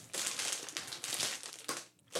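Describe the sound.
Crinkling plastic of a snack bag being torn open makes a dense, continuous rustle with a brief lull near the end before it picks up again.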